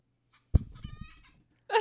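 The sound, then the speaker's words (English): Electronic clucking from a motion-sensor toy chicken, a cat toy, sets off with a sudden thump and a short run of bright, buzzy clucks, then ends with one more loud squawk after a brief pause. “Marv's chicken that makes a lot of noise. Motion sensor chicken. It might go off at any moment.”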